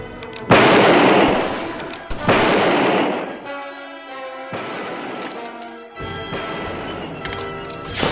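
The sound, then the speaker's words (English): A man fires a gun repeatedly: several loud, sharp blasts, each trailing into a long rumbling decay, follow one another at uneven intervals. “He's slinging a lot of lead, but he's shooting high.”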